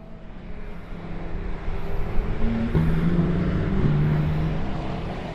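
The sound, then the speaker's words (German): Engine drone from blue, yellow and red Porsche sports cars lapping a race track, driven by private owners close behind one another through tight corners and over a crest: a steady, fairly faint rumble that swells slightly midway, with no voices. “Auf einer Rennstrecke drehen Privatleute Runden in einem blauen, gelben und roten Porsche. Sie flitzen knapp hintereinander durch enge Kurven und über einen Hügel.”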